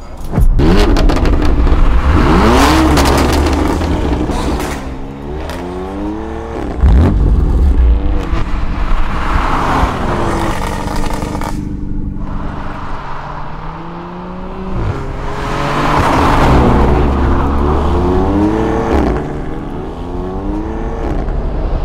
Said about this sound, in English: That right there is an Audi RS3.